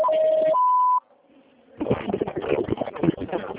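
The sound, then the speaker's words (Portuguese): Voicemail prompt tones: a steady lower beep followed by a higher one, then a faint third tone, after which a voice begins speaking. “Sua chamada está sendo encaminhada para a caixa de mensagens e estará sujeita a cobranças após o sinal.”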